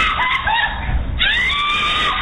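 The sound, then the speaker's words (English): A mother's piercing scream caught on surveillance video at a gas station after a road-rage shooting into a family's SUV: a high, strained, drawn-out shriek with a brief break partway through before it resumes. “A mother's piercing scream caught on surveillance video obtained by ABC station KTRK.”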